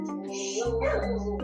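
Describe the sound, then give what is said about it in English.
A small male dog barks and yips in a brief, loud, continuous burst. “I guess the dog wants to speak to.”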